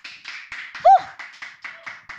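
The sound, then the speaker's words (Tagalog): An audience clapping during a worship service, a steady rhythmic run of short clap bursts, with a brief voice cutting through near the start. “Palakpakan po natin ang Diyos.”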